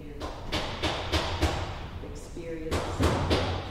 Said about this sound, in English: That's the sound of a massive construction project that's going on just outside the gym.